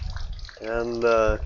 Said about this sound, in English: There's like a, you can probably hear the water feature. It's a fantastic feature.